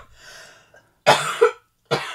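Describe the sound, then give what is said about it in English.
A person with a persistent cough gives three harsh coughs. The first two come close together and the third follows after a short pause, all after a faint, breathy sound at the start. “No, but it's because I've got this cough and it won't stop and I'm talking too much.”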